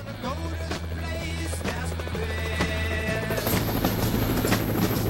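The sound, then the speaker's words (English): A helicopter flies toward a quarry: a loud, steady rotor drone with a low, rhythmic throb that swells slightly louder partway through. “A helicopter flies toward the quarry where the soldiers wait.”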